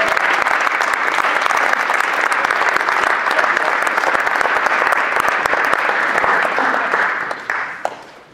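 Welcoming applause for new church members, a full, steady clapping from the audience that lasts several seconds before tapering off into scattered claps.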